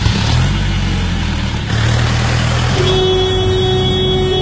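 A car speeds up in a hurry on the way to the airport, its engine hum steady and loud, then stepping up to a higher note partway through as it accelerates.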